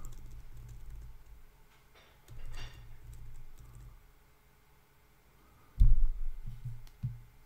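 Computer keyboard typing while someone searches for a video: soft, quick clicking taps come in short flurries, followed by a few duller, louder knocks and clicks near the end.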